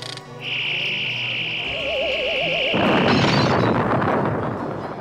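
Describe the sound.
A shot blasting a rock, starting with a steady high whine joined by a wavering warble, then a loud, broad, noisy burst that stays strong until the end, with no voices.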